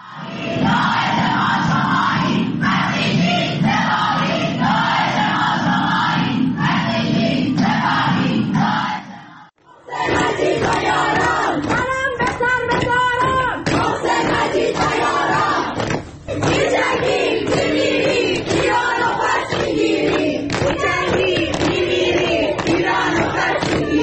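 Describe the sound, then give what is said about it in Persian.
Students at a Tehran university art faculty chant in a protest crowd. The loud, rhythmic unison shouting runs steadily, breaks off briefly about a third of the way in, then resumes just as strongly. “و این بخشی از اعتراضات دانشجویی در دانشکده هنر دانشگاه سوریه تهران.”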